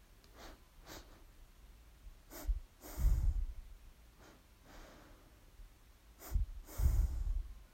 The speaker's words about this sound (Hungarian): Lélegezz be kétszer, hogy megtöltsd a tüdőd, és lélegezz ki kétszer, hogy kiürítsd a tüdőd. Valahogy így fog hangzani.